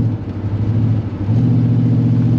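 A car engine runs with a newly fitted exhaust, giving a deep, steady droning hum that grows slightly louder and fuller partway through.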